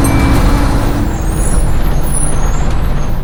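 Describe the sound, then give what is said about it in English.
A bus's air brakes hiss at the end of its route. A loud, continuous rush of released air sits over a low engine rumble and lasts the whole clip without pause. “This bus terminates here.”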